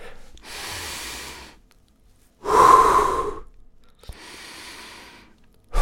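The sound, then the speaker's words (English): Deep breathing: three slow, airy breaths separated by short pauses, the middle one loudest and fullest with a rough, hissing edge, the outer two softer and smoother. “Breathe.”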